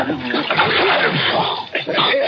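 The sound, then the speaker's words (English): Water is splashed over a sleeping man, a continuous wet, sloshing splatter that fills the whole brief moment and dips just before the end. “Splash some more water.”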